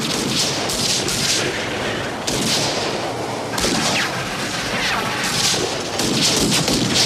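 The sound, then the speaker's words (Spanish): Gunshots from pursuers firing at people escaping in a runaway mine cart: many sharp cracks and bursts over a constant loud, rumbling roar, with no clear gaps between them. “¡Es nuestra única oportunidad de escapar! Los perseguidores les disparan.”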